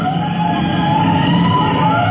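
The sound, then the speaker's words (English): A fire engine's siren wails as the truck rolls out to a call: one loud, sustained high tone that carries on without a break and with no voices over it. “two men sitting in a lightly built roadster hear the siren blocks away.”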